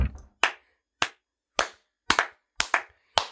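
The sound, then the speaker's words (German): Sharp hand claps ring out one at a time at a slow, uneven pace, with a couple landing in quick pairs and clear silence between them. “Für dich wäre es wahrscheinlich am geilsten, wenn wir die ganze Folge einfach durchklatschen würden.”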